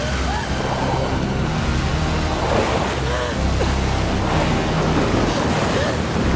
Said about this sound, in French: Sous des trombes d'eau, un bateau dévoré par les flammes se consume sur une mer déchaînée.